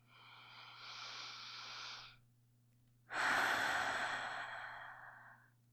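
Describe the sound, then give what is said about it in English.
A slow, deep breath during a guided meditation: a soft, airy intake for about two seconds, a short pause, then a longer, louder exhale that tapers off gradually. “deep breath, exhaling slowly again, allowing yourself to release any feelings of tension, stress, and anxiety that you may hold.”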